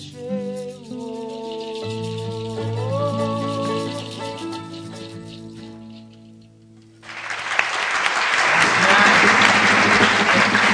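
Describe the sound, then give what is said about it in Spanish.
Audience applause after a live musical performance: melodic music plays for about seven seconds, stops, and a loud, dense wash of clapping takes over and holds steady to the end. “¿Viste cuánta gente aplaude?”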